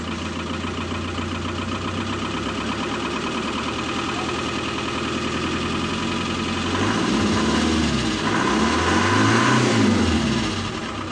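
A car engine that has just started idles with a second alternator fitted. It gives a steady low harmonic hum, and near the end the revs swell and drop back twice, louder.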